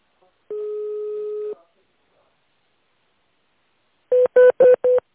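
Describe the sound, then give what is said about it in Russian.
DTMF keypad tones from a phone call to a company line: a single steady beep of about a second, then four short tones in quick succession. “Вы знаете номер сотрудника, наберите его в тоновом режиме или оставайтесь на линии.”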